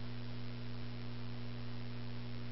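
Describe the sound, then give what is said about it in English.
Steady droning hum from the cooling fan of a Pyramid power supply in a ham shack: a constant low tonal drone over an even airy hiss, with no change in level and no talk. “I think these equipment that have little fans that blow hot air out of the side has something to do with it.”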